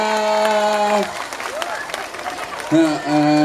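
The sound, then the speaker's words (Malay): Children clap their hands together in a short burst, with a voice heard just before and again right after the clapping. “Pinter anak-anak, tepuk tangan semuanya.”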